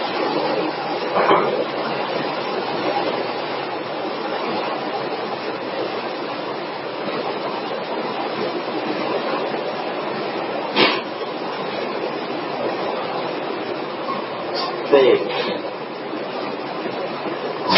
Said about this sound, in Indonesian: tolong ditutup pintunya supaya mengurangi suara air hujan